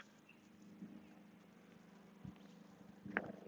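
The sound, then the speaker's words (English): A small private airplane flies by as a steady, low droning hum that holds throughout, with a few faint knocks on top. “a little private airplane flying by”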